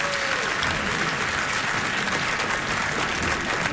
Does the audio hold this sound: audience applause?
yes